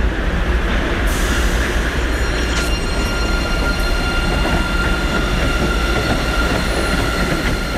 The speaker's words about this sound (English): there is also a violin that arises from the train as it leaves the station